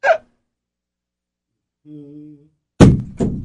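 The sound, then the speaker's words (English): A 30-pound dumbbell hits the floor with a heavy, loud thud, followed a moment later by a second, softer thud. Before the impacts there is a brief low vocal murmur and otherwise silence. “That was a 30-pound dumbbell. What the freak are these things made out of?”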